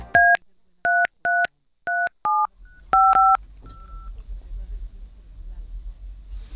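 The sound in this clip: Telephone keypad dialing tones, about eight crisp two-pitch beeps in an uneven rhythm, some short and some longer, followed by faint background rumble and a brief soft tone.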